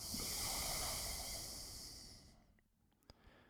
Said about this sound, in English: Let go of the nostrils, breathe in through both nostrils, breathe out through both nostrils.